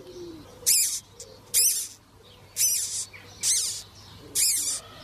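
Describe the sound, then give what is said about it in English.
Owl calling: five sharp, high-pitched calls at a steady rhythm, each a short bright burst standing out clearly over a faint low hum and quiet background noise. “Take a listen. There's an owl.”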